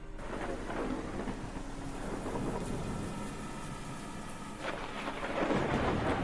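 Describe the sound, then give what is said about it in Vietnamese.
Heavy rain pouring down during a thunderstorm, a continuous dense hiss with deep rolling thunder that swells, eases and builds again toward the end, fairly faint overall. “Ngoài trời bắt đầu đổ mưa như chút nước, thi thoảng vang lên những tiếng sét đinh tai nhức óc.”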